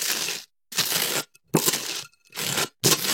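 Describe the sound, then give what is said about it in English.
Butter is spread on toast in five rough, crackly scraping strokes, each about half a second long and separated by short pauses. “Yeah, it's spreading butter on toast.”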